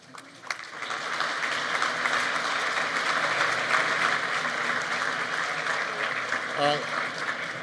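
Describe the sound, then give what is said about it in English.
A snare drum roll plays at an awards dinner to quiet a chatty audience. It starts suddenly and sustains as a dense, loud, even rattle for about six seconds before ending. “We've decided from the last couple of dinners that the only thing that would quiet this social of an audience was a drum roll and some strobe lights, so it worked very well.”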